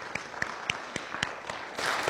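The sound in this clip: An audience applauds to welcome a guest preacher. Faint, scattered individual claps at a steady pace build into fuller, denser applause near the end.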